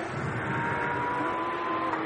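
A bright yellow race car on its flying lap gives a steady, sustained engine drone with a held tonal whine. The sound stays at an even loudness and no voices are heard.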